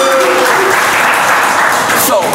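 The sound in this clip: Audience cheering and clapping, a dense, loud and steady roar of applause and shouts that holds at one level for the full couple of seconds.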